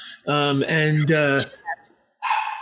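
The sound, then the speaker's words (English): Dog barking: a few loud, deep, voiced barks come in quick succession, then a pause broken by small sounds, and finally one shorter burst. “Somewhere a dog barks.”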